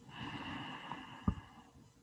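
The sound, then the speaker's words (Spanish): A soft, long breath drawn through the nose during a guided breathing exercise, quiet and airy, ending in a brief sharper sniff. “Vamos a purificarla. Inhalamos pureza del ambiente, de la vida, del aire.”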